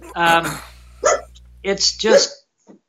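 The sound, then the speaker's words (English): A dog barks a few times in short, sharp bursts separated by pauses, loud against an otherwise quiet background. “oops, my dog is barking. That's a good sound.”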